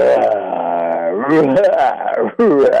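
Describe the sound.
A man's voice imitating a tiger's roar: a long, loud, growling roar with wavering pitch that breaks off briefly, then a second, shorter roar.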